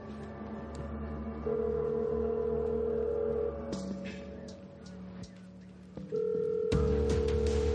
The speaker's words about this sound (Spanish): Se coloca unos cascos con micrófono, respira hondo y pulsa el botón de llamada.